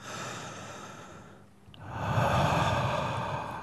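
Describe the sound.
Breathing into the back of a hand makes two breathy, muffled rushes of air, the first softer and briefer, the second louder and longer, alone without talk.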